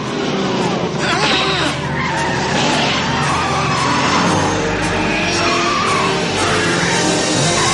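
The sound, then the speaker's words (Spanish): Tires screech as a car skids through a sharp curve in the 1985 film Back to the Future, a loud, sustained squeal over a roaring engine that lasts several seconds. “Toman una curva cerrada.”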